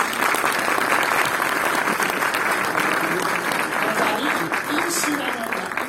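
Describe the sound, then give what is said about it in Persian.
Audience applause fills a ceremony announcing Hamadan as Iran's capital of history and civilization: dense, steady clapping from a large crowd, holding at an even, fairly loud level for the whole six seconds. “این انتخاب برای خودتون دست میزنید.”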